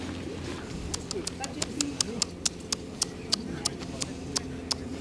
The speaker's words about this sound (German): Hier tanzt eine Möwe auf dem Volvo rum.